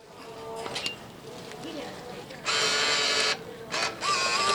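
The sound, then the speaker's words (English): A book vending machine in Oakland, California whirs as it dispenses a copy of a short story collection, a soft mechanical hum that swells into two loud, steady motor bursts, the first longer than the second. “Ah, the sound of buying a book? Indeed, that's a customer picking up a copy of musician and actor Janelle Monáe's Afrofuturist story collection, The Memory Librarian,”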